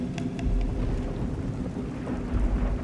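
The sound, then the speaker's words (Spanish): Thunder rolls through a night thunderstorm: a continuous, heavy low rumble sits under the steady hiss of falling rain, with no voices. “los truenos y relámpagos se sucedieron uno tras otro una vez más.”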